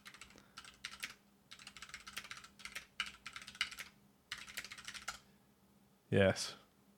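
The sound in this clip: Typing on a computer keyboard: quick bursts of light clicks come in irregular runs separated by short pauses. The keystrokes stay fairly faint throughout.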